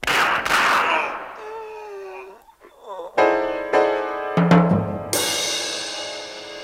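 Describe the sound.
Gunshots ring out in a gangster radio play set in Chicago: a voice is heard first, then several sharp, loud cracks follow in quick succession, each leaving a lingering ringing tail.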